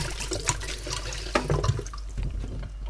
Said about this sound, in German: Wir müssen jetzt nur noch das Gemüse waschen. Das machen wir schnell.